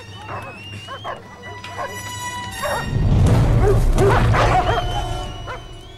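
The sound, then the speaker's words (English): Several dogs barking, yipping and whimpering as they jump up below a garage roof: excited, repeated barks that grow louder and busier in the second half. “She drops onto the garage roof as the dogs jump up. She tries a window. A dog!”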